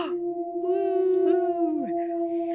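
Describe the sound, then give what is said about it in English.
A wolf howl used as a recognizable sound cue: one sustained, steady tonal howl that holds its pitch for over a second, then slides downward near the end, with faint noise around it. “the very, very branded and very recognizable wolf howl that we seem to have coined now will be playing sounds just like this.”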